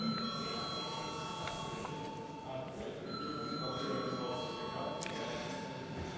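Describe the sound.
Electronic bell ringing in the Latvian parliament chamber to call a vote, a steady, held ringing with bright tonal overtones lasting several seconds, fairly faint above a low background hum.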